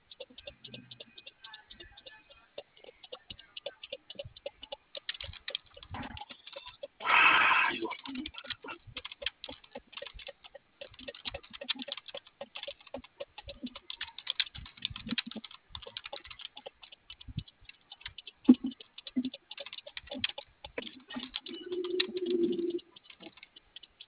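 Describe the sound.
Typing on a computer keyboard: many quick, light key clicks in an irregular patter throughout, with one brief, louder burst partway through.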